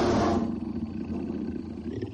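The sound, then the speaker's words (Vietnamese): A deep wild-beast roar rolls into a sustained low growl coming from a bed. It is loud at the onset, then holds as a continuous rumbling snarl for the whole stretch with no talk. “Còn có cả tiếng gừ gừ mà chỉ có dã thú mới có thể phát ra.”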